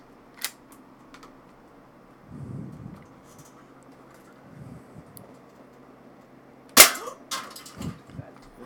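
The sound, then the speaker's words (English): Green gas blowback pistol fired at a can: a small sharp snap early, then a loud crack with a metallic ring near the end, followed by a few lighter knocks. “You hit the can. Damn. Yeah, there's a lot of, it's got realistic recoil because it's a green gas blowback pistol.”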